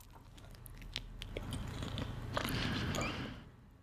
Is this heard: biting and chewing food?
yes